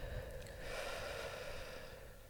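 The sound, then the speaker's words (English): A deep breath taken in and let out slowly with eyes closed: a faint, soft, airy rush that swells and then fades, with no talking over it. “close your eyes and big breath in and out”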